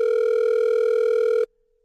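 A telephone ringing tone on an outgoing call holds one steady, pure, mid-pitched tone for about a second and a half, then cuts off abruptly into silence.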